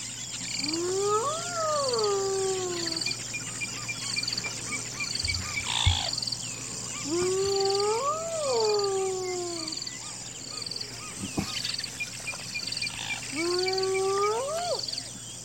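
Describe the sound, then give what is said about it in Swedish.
Hyenas howling in South Africa: three long whooping calls, evenly spaced, each rising and then falling in pitch. They sit over a constant high, insect-like hiss. “det här är en inspelning från Sydafrika och det är hyena som ylar”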